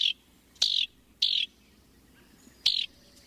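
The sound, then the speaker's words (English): A house wren, a familiar North American songbird of open woodlands and wooded edges, gives four sharp, high chirps separated by short pauses, with a longer gap before the last one, alone against a quiet background. “It's a familiar songbird and one of the most thoroughly studied by biologists. In North America, house wrens breed in open woodlands, fragmented forest, and along wooded edges, and most migrate south in late summer.”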